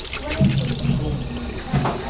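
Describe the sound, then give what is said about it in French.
Tap water runs steadily at a sink while a child's hands are rinsed of soap foam, a continuous hiss with people talking over it. “On va mettre encore un petit peu sous l'eau. Tout enlever la mousse.”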